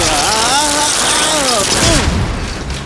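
A sci-fi zapper weapon fires in a cartoon: a harsh buzzing burst laced with warbling, sweeping electronic tones that falls away near the end.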